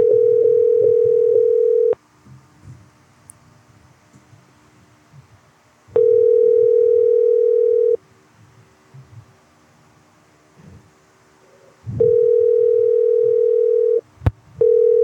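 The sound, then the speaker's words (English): A telephone line tone heard while calling someone back: three steady two-second tones separated by longer quiet gaps, with faint background murmur between them and a brief click near the end. “Let's get Crawford back on the phone.”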